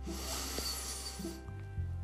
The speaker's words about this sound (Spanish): Todo por nariz, vamos a inhalar, sostener y exhalar en nariz cuatro veces. Inhala profundo,